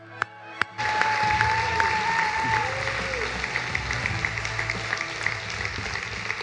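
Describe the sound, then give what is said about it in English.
Audience applause fills a church, bursting in after a quiet opening and holding as steady, dense clapping, with a voice rising briefly over it. “Give it up, church.”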